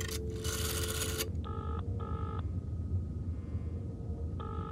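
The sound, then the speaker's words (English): A telephone is dialed: a few short, faint electronic tone beeps separated by pauses, after an opening burst of hissing noise. “Dial 4 for outside lines, ma'am.”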